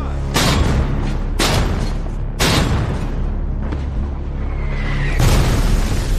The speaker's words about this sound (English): And suddenly, German artillery opens up.